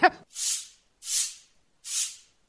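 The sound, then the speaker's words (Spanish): A broom sweeping a floor: three slow, evenly spaced swishing strokes, each a soft hissing brush of about half a second separated by silence, all fairly faint. “¡Deje de barrer, carajo!”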